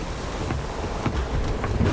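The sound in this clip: Wind roars through a storm at sea, a dense, steady rushing of wind and water that swells in a few gusts. No one speaks.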